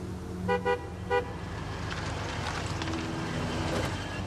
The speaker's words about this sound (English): Billy watches from the porch as Kathy drives up.